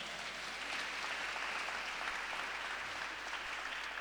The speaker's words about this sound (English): I want to congratulate the new members. It's always amazing. Yes, let's give them another hand.